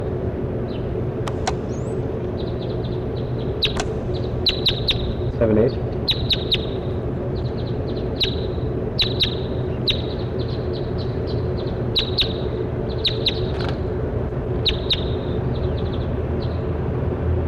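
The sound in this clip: Many brief, high bird chirps repeat in quick, irregular bursts throughout, standing out over a steady low hum.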